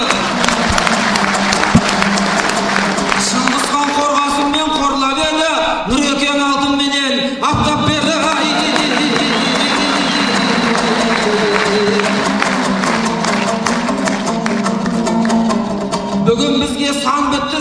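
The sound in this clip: An audience applauds at a dombra performance with sustained, dense clapping that runs throughout. Voices and tonal sounds carry over the clapping.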